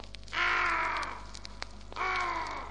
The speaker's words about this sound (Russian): кроме черного ворона, который сидит на ветке, все видит и все слышит